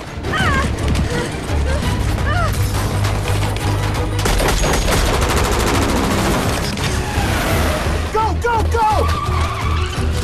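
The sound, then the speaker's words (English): Heavy gunfire in a film shootout between terrorists and FBI troops, with rapid bursts and volleys rattling over a van's engine as it speeds in reverse, while a voice narrates over the action. “Liz holds on tight as the van speeds in reverse. The terrorists return fire on the FBI troops.”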